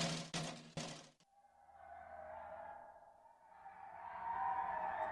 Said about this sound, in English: Driving on the mountains in this game is like so much sketchier in the snow.